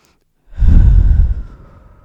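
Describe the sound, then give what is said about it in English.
One big, deep breath is taken during a guided calming exercise. A single loud, breathy rush of air swells quickly, holds briefly, then fades out over roughly a second and a half. “Now just take one big deep breath for me.”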